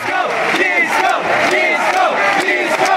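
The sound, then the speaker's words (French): A concert crowd chanting in unison to call for a song: a loud, dense mass of voices with rhythmic, sung swells that carry on without a break. “Quand il ne fait pas partie de la setlist, le titre est systématiquement demandé par le public qui scande”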